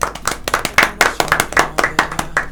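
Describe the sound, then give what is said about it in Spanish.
Clapping for primary school students at the close of a school radio program, many quick, sharp hand claps in a loose, uneven rhythm, fairly loud and sustained throughout. “felicitaciones y un aplauso para todos ustedes.”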